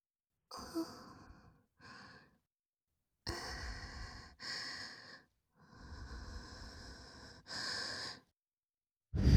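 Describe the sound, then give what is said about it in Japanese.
Gentle breathy blowing into the ear, given in a soft, intimate close-up setting. A series of soft, airy puffs and exhalations, some longer and some brief, are separated by short silences, with no talking. “それじゃあまずはお耳の穴ふうふうしてあげるね。”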